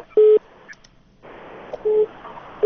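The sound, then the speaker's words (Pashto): Telephone busy signal after a call was cut off: short, steady, mid-pitched beeps repeating at regular intervals, three of them with the last cut short, over faint background noise. “الو مهربانی صاحب متاسفانه دوی تلفن هم قطع شد”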